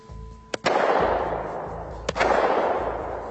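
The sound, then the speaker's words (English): A Glock 17 pistol with a 50-round drum fires three sharp, cracking shots, two in quick succession and then one more a moment later, over a steady low background rumble. “All right, so we got the Glock 17. This is regular semi-automatic Glock. Absolutely. We have a 50-round drum. We're not going to shoot all 50. We're ready to go.”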